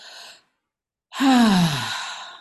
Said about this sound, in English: And it's just a full breath in the mouth